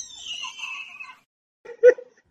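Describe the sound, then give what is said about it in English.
A high-pitched, excited squeal, one drawn-out shrill cry lasting about a second, followed after a pause by a brief, louder lower-pitched burst. “That squeal gets me. That's so funny.”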